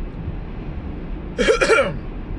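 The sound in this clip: Harsh throat clearing with a rough cough, done to clear mucus while congested from allergies: two quick, loud, raspy bursts close together over quiet background noise.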